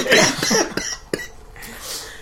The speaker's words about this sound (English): By the way, he's got a cough, so if he coughs...